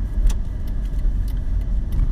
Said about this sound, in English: I'm trying to drive and talk at the same time.